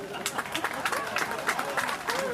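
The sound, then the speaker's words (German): Applause from a crowd at an outdoor market, many holding umbrellas, clapping for visiting traders. The claps are scattered and fairly thin, and a voice talks over them throughout. “Schon Moment für Applaus.”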